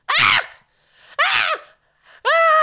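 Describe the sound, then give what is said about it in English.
A voice imitates a baby's aggressive scream cry in three loud, harsh bursts separated by short gaps, the first two shrill and ragged, the last steadier and more tonal. “But his cries are like, I call them scream cries.”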